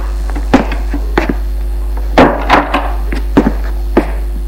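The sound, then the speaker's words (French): A door being closed as someone comes in, heard as a few dull wooden thumps and knocks at irregular intervals over a constant low hum. “Elle entre, il ferme la porte.”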